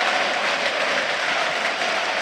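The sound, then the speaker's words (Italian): Stadium crowd applauding football players at a match, a steady dense clatter of clapping from the stands, loud and unbroken throughout with no talk. “tutti i giocatori adesso vanno a raccogliere l'applauso della curva nord, tutti gli 11 scelti da Carlos Cuesta.”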